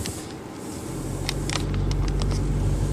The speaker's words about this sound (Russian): По брусчатке едем.